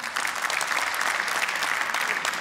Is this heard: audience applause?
yes